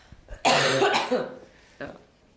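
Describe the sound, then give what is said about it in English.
A woman coughs: one long, harsh burst of coughing and then a shorter, quieter cough a moment later. No other talk is heard. “I've got to cough.”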